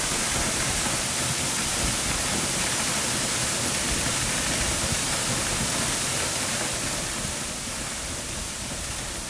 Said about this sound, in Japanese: そして滝の音も近くに聞こえだし、でこの音です。